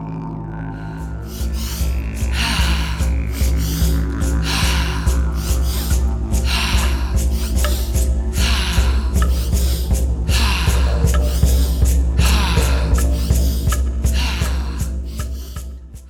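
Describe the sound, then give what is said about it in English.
Fire-breath breathing exercise, breathing in two steps and out in one: many short, forceful breath bursts come in a quick, repeating rhythm over steady background music. “In this fire breath, we breathe in two steps and then breathe out in one single step.”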